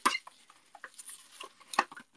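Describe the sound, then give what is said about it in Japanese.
Plastic cling film crinkles and rustles as food is wrapped up to keep for another dish. Light, irregular crackles run throughout, with sharper crinkly bursts at the start and near the end. “ラップでね、くるんでおきます。”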